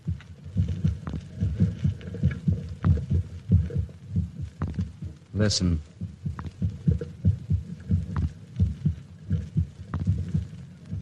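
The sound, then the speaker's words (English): A human heartbeat pulsing in a steady rhythm, many low, thudding beats in a row, with a single word spoken briefly partway through. “That sound is the first and last sound in your memory. It is the pulsating of a human heart.”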